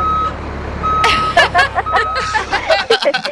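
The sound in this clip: Vehicle reversing beeps: three steady high-pitched tones in slow, regular succession. Laughter and lively talk break in over the later beeps and continue after them.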